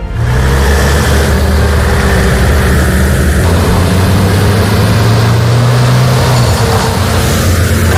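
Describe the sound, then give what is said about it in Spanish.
Military emergency unit trucks drive out from their base at dawn on a wildfire deployment. Their loud, continuous engine rumble carries a low droning tone, steady and unbroken throughout with no voices. “Este es el ruido de los camiones de la UME que han salido esta madrugada desde la base de Morón en Sevilla”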